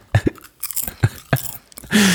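Crunchy popcorn being chewed close up, with many irregular crisp crunches and munching bursts of varying loudness, ending in a longer, denser stretch of noise.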